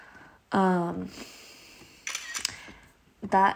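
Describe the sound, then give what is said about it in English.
Computer camera-shutter effect from taking a screenshot, heard as a few short, separate bursts of clicking and snapping set apart by quiet gaps. “That sound is of the screenshot that I just took of the graph in Excel.”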